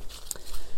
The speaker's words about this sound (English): I don't know if you can hear the crunch under my feet. And that is the sound of the leaves from one of my favourite trees of all time.